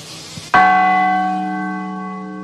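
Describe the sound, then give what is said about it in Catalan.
A single strike on a church bell in a bell tower, rung as a saint's festival begins, releases a loud, sustained metallic ring with layered harmonic tones that slowly fade. “m'agradaria que tocares la campana, no? Perquè ja que eres ací del grau, alguna de les campanes que tens ací... Perquè se senca que estem ací al campanari”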